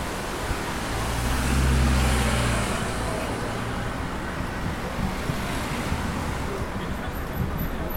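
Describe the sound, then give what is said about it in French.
Loud, steady road traffic roar mixed with splashing fountain water beside a busy street, a continuous wash of noise with a vehicle swelling past early on before the din settles back to an even level; no one speaks. “Le bruit est assourdissant, piégé entre l'eau et la circulation toute proche”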